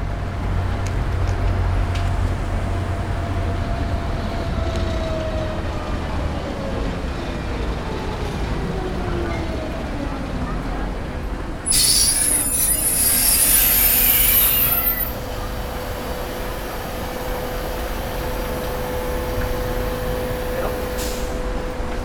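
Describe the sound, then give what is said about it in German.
A yellow mountain tram arrives at a platform over a bridge at the end of its downhill run. A loud, steady rail rumble carries throughout, broken midway by a few seconds of shrill wheel squeal. “Ich warte nun auch am Bahnsteig und erwarte die gelbe Bahn, die da gleich aus der Häuserschlucht heraus über eine Brücke ihre Talfahrt beenden wird. Jetzt kommt sie.”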